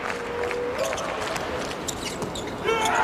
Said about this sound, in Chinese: 发球 直接得分， 发球得分